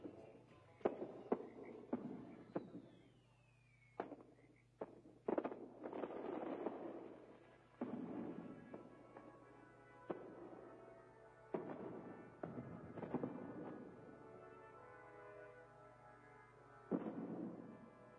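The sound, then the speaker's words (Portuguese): Fireworks display on the Fourth of July at New York, with many irregular sharp pops and booms, some bursts crackling briefly, all fairly faint and without voices. “Neste 4 de julho, temos a maior mostra de fogos de artifício”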